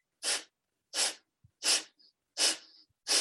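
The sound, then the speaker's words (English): Five sharp, forceful exhalations through the nose, pumped from the stomach, come in a steady rhythm well under a second apart, each a short loud breathy burst separated by near silence. “you will be exhaling through your nose, and you're going to pump your breath out with your stomach.”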